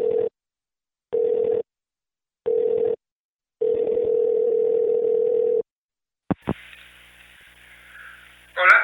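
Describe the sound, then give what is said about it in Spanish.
A telephone call is placed: four bursts of a steady ringing tone, the last one longest, then a sharp click and a hiss of line noise as the call connects. “Así que le voy a llamar. Vamos a probar la llamada.”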